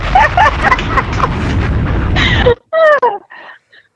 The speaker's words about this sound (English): Let me drop a bomb for your sister. Drop a bomb for your sister.